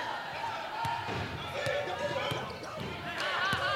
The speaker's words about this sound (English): dribble through the lane, hands off to Long